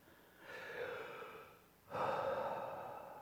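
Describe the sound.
A deep breath drawn in during a guided meditation: two long, soft, airy breath sounds, the second stronger than the first, with no talk.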